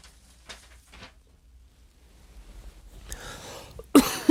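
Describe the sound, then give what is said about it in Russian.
A person with a cough that has lasted a couple of months: a few faint, brief bursts early on, then a louder, sharper cough near the end. “извините, у меня реально кашель”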